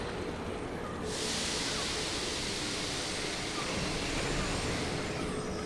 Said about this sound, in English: Soft wind.